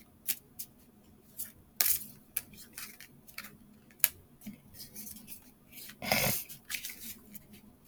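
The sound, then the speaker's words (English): Tarot cards being handled and one flipped over, heard as many soft papery taps, flicks and snaps at an uneven rhythm, with a louder brushing swish near the end. “I'm gonna flip a card before commenting.”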